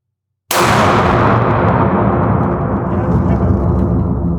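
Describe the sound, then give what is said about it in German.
A single loud gunshot, fired from a shouldered gun at the upper target, cracks sharply out of silence and trails into a long, rumbling decay. “Okay, jetzt ist noch gesichert. Okay. So, entsichern. Und auf das obere Scheibe schießen.”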